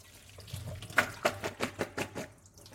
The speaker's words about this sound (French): Je viens rincer mes têtes de chou-fleur.